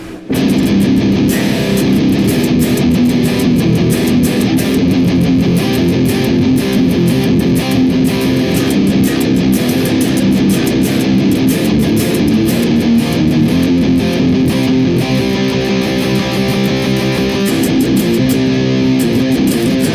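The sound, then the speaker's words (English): Heavily distorted electric guitar runs through the Neural DSP Archetype Abasi amp plugin with the Iron Drone Green KT88 impulse response, a loud, dense, continuous riff with rapid, tightly picked attacks throughout. “the exact same impulse response, but it is now loaded into the Archetype Abassi from Neural DSP, it sounds like this.”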